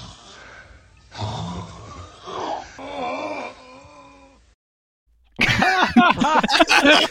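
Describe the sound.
A man moans and groans in several drawn-out, strained vocal bursts over a faint background. After a short silence, louder and more rapid vocal sounds follow.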